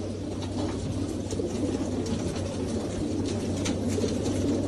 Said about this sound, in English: Look, the bird here.